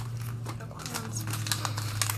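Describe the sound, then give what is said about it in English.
Unicorn shapes are cut out with crinkly snips and rustles, a string of quick, faint bursts over a low, steady hum. “I can cut out some unicorn ones.”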